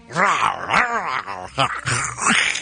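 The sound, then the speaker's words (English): A human voice imitates the growl of a wolverine with a few whiny, growling yelps whose pitch swoops up and down. The bursts are rough and throaty, with no other sound. “Do not make those noises again. Terrible. It's Wolverine. That doesn't sound anything like him. $55 million. It's not him. It's an actual Wolverine.”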